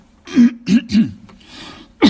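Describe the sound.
Harsh throat clearing: four rough, voiced grunting bursts, with a softer breathy rasp between the third and fourth.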